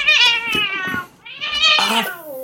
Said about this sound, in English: Sorry, my cat is sitting right by the microphone.